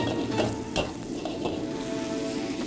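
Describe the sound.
A wok sizzles loudly and continuously as food is stir-fried quickly during a timed cooking contest. The hiss stays steady and dense, broken by a few brief, sharper accents.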